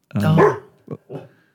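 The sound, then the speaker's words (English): A dog barks in a recording studio: one louder, longer bark followed by two short, softer barks, all within under two seconds. “Charlie the Studio Dog. Charlie. What's going on? Charlie, shush.”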